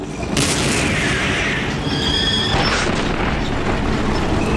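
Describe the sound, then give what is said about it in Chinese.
Tank cannon fire as British tanks open the first shots against German tanks on rough ground: heavy, booming blasts over a continuous loud rumble. “英国人率先开火，他们打响了坦克对战的第一炮。”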